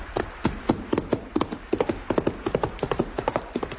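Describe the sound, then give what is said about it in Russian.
A saddled horse's hooves clip-clop in a quick, steady rhythm: many sharp, hollow knocks follow one another closely with no voices over them. “Лошадь давно оседлана.”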